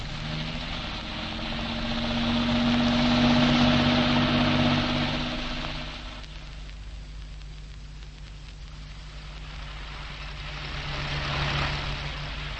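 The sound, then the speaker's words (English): A car engine runs as the car pulls away, a steady low rumble that swells around the third second, eases off, then builds again near the end, with no voices. “Now then, in you get. We'll go over here, I'll drive. Well, we're off.”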